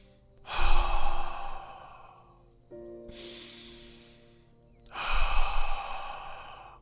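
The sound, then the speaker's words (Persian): Slow, calming breathing: three long, airy breaths, each swelling and then fading slowly, loud and alone. “یعنی سعی میکنیم نفس بکشیم اما روی نفسمون تمرکز میکنیم. فقط باید به این نکته توجه بکنید که بذارید نفس خودش آروم بشه. مثل این.”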